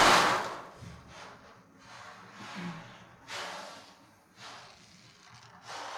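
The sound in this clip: Ocean drum played by a first-time player during a meditation session: several hissing, wave-like swells of rolling beads, each rising and fading in turn, the first one loudest.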